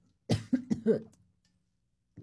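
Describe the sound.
A person with allergies coughs in a quick run of four rough, throaty bursts, then goes quiet. A faint sound follows near the end.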